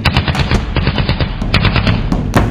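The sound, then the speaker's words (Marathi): Rapid bursts of automatic gunfire from militants firing on an army captain, many sharp cracks in quick, uneven succession, loud and continuous with no voices. “तिसऱ्याने त्यांच्यावर बंदुकीच्या फैरी झाडल्या.”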